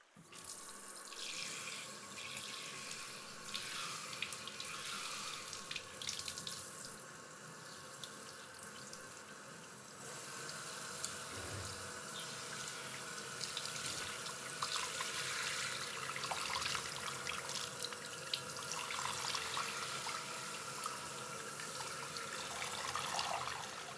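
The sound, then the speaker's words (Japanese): Hot water pours over a customer during a wash, a steady, continuous rush and splash of running water that keeps an even hiss for the whole stretch with no talk. “もう一度お湯をかけますので、熱かったら言ってくださいね。”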